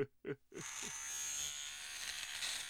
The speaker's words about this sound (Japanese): さあさあさあ、ヒゲを剃るのです。